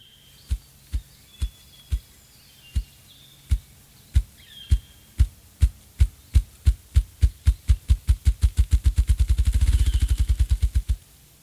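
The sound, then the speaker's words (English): A ruffed grouse drums along a road near a cottage: deep, muffled wingbeat thumps begin slowly and far apart, then speed up steadily into a rapid, blurred low roll before stopping abruptly, with faint birdsong above early on. “That is the sound of a ruffed grouse.”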